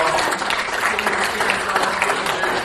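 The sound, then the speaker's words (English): Audience applause, a dense, steady clatter of many hands clapping at once that stays fairly even from start to finish. “Round of applause.”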